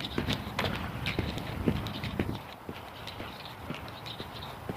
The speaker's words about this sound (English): I do have the metronome going.